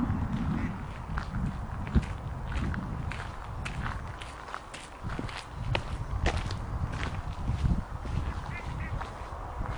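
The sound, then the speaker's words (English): Footsteps of people walking outdoors along a tree-lined pathway, with many soft, steady steps at a faint level over a low background rumble. “And we continue to walk, taking in the view”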